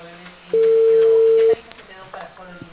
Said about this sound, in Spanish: Se había cortado la llamada, estimada.